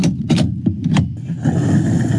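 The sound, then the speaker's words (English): A fuel pump runs as a car's tank is filled: a few sharp clicks at first, then a steady, loud mechanical whir. “The pump is running, the litres are ticking up, and so is the cost of filling the tank.”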